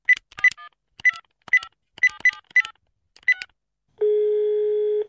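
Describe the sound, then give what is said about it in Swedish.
Telephone keypad dialing to call someone: eight short touch-tone beeps at uneven intervals, followed after a brief pause by a single steady ringing tone lasting about a second. “Skulle vi kunna ringa upp honom?”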